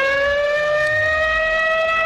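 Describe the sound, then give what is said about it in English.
A siren sounds alone and loud for about two seconds, holding a steady wailing tone with bright, layered harmonics and no clear rise or fall in pitch. “Do you want a siren? He wants a siren. It's a siren.”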